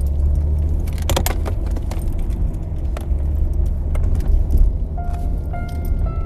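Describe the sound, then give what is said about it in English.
Inside a moving car, a steady low rumble of engine and road runs throughout. Keys jangle and click on top of it, with a bright cluster of jingles early on and lighter rattles later. “Alright, I'm also driving.”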